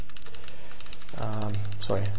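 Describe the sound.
Computer clicks come as a string of many sharp, light taps, like keys being pressed, and someone speaks over them in the second half.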